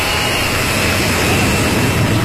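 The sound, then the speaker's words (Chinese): A large domestically built jet airliner takes off, producing a steady, loud, dense jet-engine roar with a deep rumble that holds evenly throughout. No other sound stands out. “国产大飞机一飞冲天”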